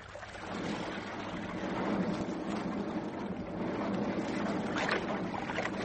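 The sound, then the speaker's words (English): A ship under way on its engine with a damaged propeller: a steady, broad rushing rumble that holds at an even level throughout, with no voices. “Start the engine. A little bit of screw that's left may just get us back with our dignity.”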